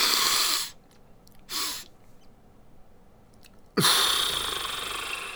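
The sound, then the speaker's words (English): Deep double inhale followed by a long exhale during breath work: a full airy breath in, a short second sip of air after a pause, then after a longer gap a sustained, loud, rushing breath out that carries on to the end. “So you're breathing in deep, taking a second breath, and then blowing it out long.”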